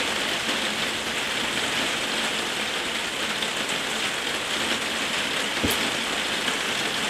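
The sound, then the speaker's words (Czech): Heavy rain falls in a dense, steady hiss of drops on a surface, with one sharp click near the end. “Ale zesiluje déšť.”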